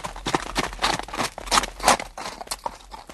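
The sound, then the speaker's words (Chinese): Horse hoofbeats, many clip-clopping strikes in an uneven running rhythm with fairly steady loudness, heard alone. “你们听 啊， 我听见后面有马蹄声，哎，是不是啊？”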